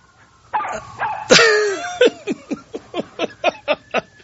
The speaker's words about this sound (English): All these yapping dogs and sirens and cameras. Oh, that's bad. Listen to that.